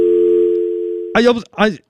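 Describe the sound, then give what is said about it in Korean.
A steady telephone line tone sounds during a call, holding for about a second before a voice starts speaking. “이제 전화가 왔어. 지금 전화가 왔어. 전화 받아보도록 하겠습니다.”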